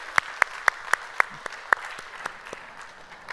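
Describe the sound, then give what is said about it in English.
An audience applauds to welcome a visiting family into a church service. Crisp, evenly spaced claps stand out above a softer wash of clapping before they thin out. “put your hands together and welcome them into our family room today”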